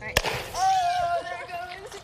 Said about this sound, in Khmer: នេះជាការពិសោធន៍សាមញ្ញត្រាប់តាមការបង្ហោះគ្រាប់រ៉ុកកែត ដាក់គ្រាប់ថ្នាំចូលហើយបិទឲ្យជិតពេលទឹកនិងគ្រាប់ថ្នាំលាយគ្នាវាបង្កើតជាសម្ពាធ